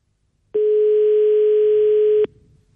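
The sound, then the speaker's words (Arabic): A telephone rings during a live radio call-in segment. A single loud, steady electronic tone holds for under two seconds, then cuts off to near quiet. “ها هو التليفون كيصون.”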